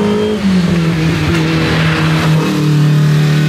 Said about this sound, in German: es ist nämlich wieder Bergrennen angesagt und es wird wieder eine Menge los sein.